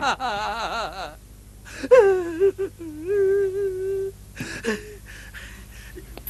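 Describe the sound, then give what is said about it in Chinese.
Crying and whimpering from a demon character, a voice sobbing in wavering, high-pitched bursts. The sobs come in short shaky phrases, then settle into a sustained, trembling wail. “妖怪，妖怪， 你别哭了”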